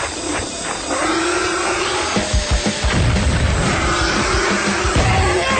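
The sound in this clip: A grenade explosion sound effect in a Spanish-language radio drama: a loud, sustained roaring blast with deep rumbling and hiss that fills the whole clip without pause.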